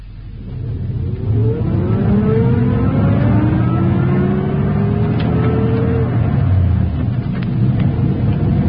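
A chauffeur-driven Rolls-Royce pulls away, its engine revving with whining tones that climb in pitch over a deep, steady rumble. The sound stays loud throughout.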